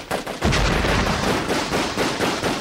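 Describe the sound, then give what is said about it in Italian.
Gunfire during an armed hostage-rescue assault: many loud, sharp shots in rapid, irregular succession, forming a dense volley throughout with no voices. “Sentimmo uno sparo. A quello sparo ne seguirono altri.”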